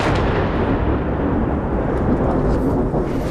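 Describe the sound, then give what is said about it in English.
An Israeli airstrike explosion in Nabatieh, Lebanon, heard as a heavy, continuous low rumble that stays loud and steady throughout, with no sharp single blast standing out. “We've been here for about 10 minutes and there's been a wave of very intense Israeli airstrikes. We've just heard another one and we can see the plumes of smoke rising”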